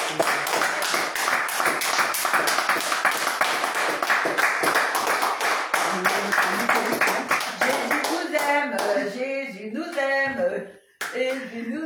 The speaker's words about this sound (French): Est-ce qu'on peut encore acclamer?